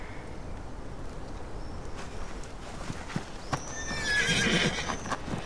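Restless horses neigh, with a few hoof clops first and then a loud, high whinny toward the end over a steady low background.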